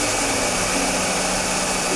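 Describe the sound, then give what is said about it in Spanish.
A vacuum cleaner runs steadily while cleaning popcorn from an office, giving a loud, constant whooshing motor drone with no break or change in level and no voices. “¿puedes parar un momento la aspiradora?”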